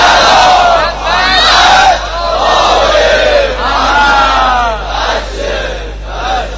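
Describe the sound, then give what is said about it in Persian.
A large crowd at a religious gathering recites salawat in unison: loud, chanted voices rise and fall together in several swelling phrases, with a steady low hum beneath. “ایشالله صلواتتون تأیید عرایض بنده باشه، از اون صلوات های محمدی که حفظ کنه.”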